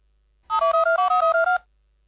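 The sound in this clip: Telephone ringing tone on an outgoing call placed from a radio station: one loud burst of rapid pulses warbling between two electronic pitches, lasting about a second, with silence before and after.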